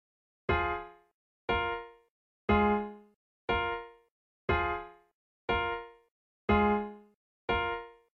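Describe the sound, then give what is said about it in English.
Eight short woodwind chords with flutes from The Crown series score sound alone at an even pace of about one per second. Each chord starts crisply and quickly fades. “So the short woodwind chords, the ones that are played with like flutes and things like that, sound like this.”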